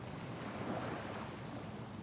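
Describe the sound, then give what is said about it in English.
Ocean waves washing onto a beach form a soft, steady rushing noise that holds an even level throughout, with no distinct breaks. “Now it's time to just lie on the beach. Feel those ocean waves”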